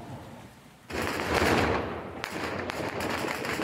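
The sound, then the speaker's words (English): Gunshots fired into the air to break up a rally in Kabul: a few sharp cracks and a burst of rapid fire cut through dense, rough background noise. “The Taliban fired shots into the air to break up a rally in Kabul today.”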